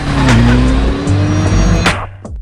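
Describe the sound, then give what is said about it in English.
A police motorbike's engine as it rides away: a loud, steady engine drone with shifting tones. It drops off and grows quieter in the last moments. “He's back on his cop bike.”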